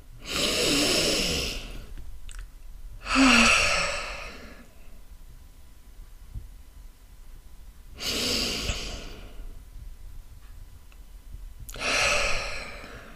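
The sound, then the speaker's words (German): Deep, slow breathing, in through the nose and out through the mouth: four long, airy rushes of breath separated by quiet pauses, with no talking. “Und jetzt atme einfach mal tief ein und aus. Am besten ein durch die Nase und aus durch den Mund. Ganz bewusste Atemzüge.”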